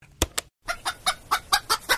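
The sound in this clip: A chicken clucks in short, sharp bursts: two quick clucks, a brief silence, then a steady run of seven more evenly spaced clucks at a moderate volume.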